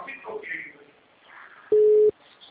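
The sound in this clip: A telephone busy tone sounds after a dropped phone call: one loud, steady, mid-pitched beep cuts in after a stretch of quieter talk and stops abruptly.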